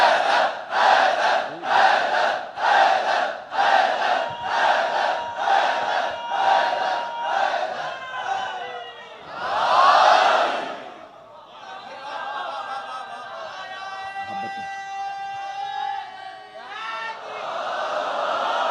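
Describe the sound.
Crowd chanting the religious slogan "Haidari" over and over in a fast, steady run of loud pulses. A single strong voice cries out after it, then a sustained, tonal voiced sound trails on.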